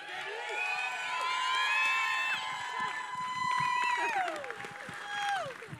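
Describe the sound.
An audience cheers and applauds to welcome a speaker onto the stage, with sustained clapping, shouts and high whoops that swell and ebb over several seconds.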